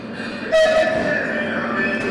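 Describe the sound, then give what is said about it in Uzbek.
A passenger train from Kyiv arriving at Kherson station gives a steady, broad rumble of rail noise, with a brief higher horn-like tone near the start. “Rossiya ishg'oldan ozod etilganidan bir hafta o'tib, 19 noyabr kuni Xersonga Kievdan yo'lovchi poyezd yetib keldi.”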